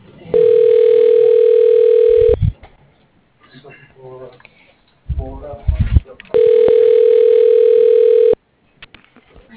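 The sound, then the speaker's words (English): Over a telephone call, a pure electronic line tone sounds twice, each a long, flat, steady beep of about two seconds. Brief clicks and muffled noises fill the gap between them. “Dialing.”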